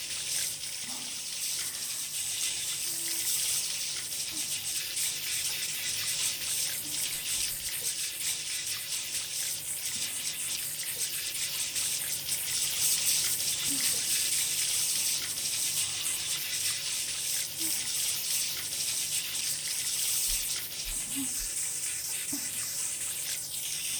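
Hot water runs steadily from a tap or shower while hair is rinsed in a bath, a continuous hiss and splash with a few soft knocks and no talking.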